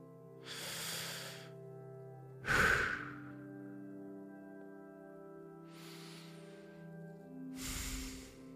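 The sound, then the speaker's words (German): Slow, deep breaths in and out during a guided relaxation exercise for anxiety and panic: several soft, airy breaths, one sharper and louder, spaced over a quiet sustained musical drone. “Atme jetzt einmal tief ein und aus.”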